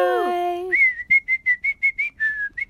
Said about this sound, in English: Whistle.